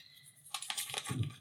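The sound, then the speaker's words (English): A measuring tape is fetched and handled, giving soft clicks, taps and a light rattle. The sounds are faint and last about a second. “Let me just get my measuring tape.”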